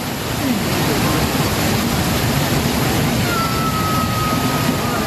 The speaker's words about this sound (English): That's the sound of rivers of water which have flooded communities and swept homes away.